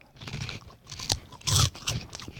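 Crunching and chewing of crunchy, light-coloured vegetable-broth snack sticks about 3 cm long, heard as several sharp, uneven bursts of crackle with the loudest crunch partway through.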